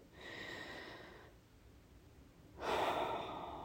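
A deep breath: a long, airy inhale followed by a quiet pause, then a louder, breathy exhale, with no talking.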